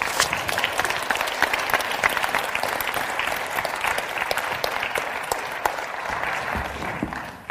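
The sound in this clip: Warm applause from a seated audience greeting a speaker at a gathering in Alberta, a dense, sustained clatter of many hands with sharper individual claps standing out before it tapers at the end.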